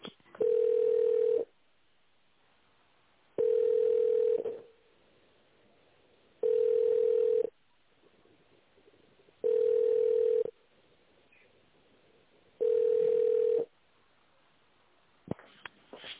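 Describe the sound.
Telephone ringing tone plays while a call is transferred to a company director: five steady, mid-pitched tone bursts of about a second each, evenly spaced by silent gaps, with no voices.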